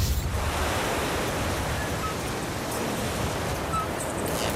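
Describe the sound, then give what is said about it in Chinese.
Strong typhoon wind and crashing waves batter a lighthouse, forming a constant, loud, roaring wash of noise with no voices heard. “对， 这风太大了。”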